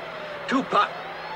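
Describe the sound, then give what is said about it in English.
A police motorcycle approaches, heard as two short rising-and-falling whines in quick succession over a low steady hum. “Motorcycle cop. Tia and Tony turn round to see the approaching policeman.”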